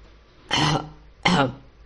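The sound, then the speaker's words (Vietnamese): A man's two short, dry coughs, each a brief harsh burst separated by a pause, with no talk around them. “Ông ta chỉ có thể ho khan nói:”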